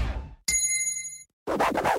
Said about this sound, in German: Trinkpause. Der Gong.